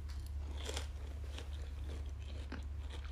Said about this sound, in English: I just realized that this has turned into a mukbang.